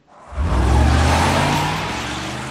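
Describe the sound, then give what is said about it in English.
A sports car accelerates hard with its tires spinning on a snowy street, a loud, broad engine roar that surges up from near silence, holds steady and then slowly eases off. “Tires spinning, the car pulls into a snowy street.”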